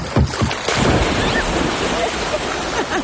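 Someone jumps into the water from a cabin dock: a couple of short thumps, then a loud, broad splash that gives way to sustained churning, hissing water.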